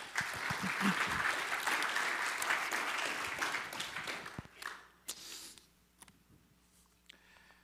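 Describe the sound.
Audience applause welcomes a speaker at a church morning service, a faint, steady patter of clapping that thins out and dies away over the last few seconds.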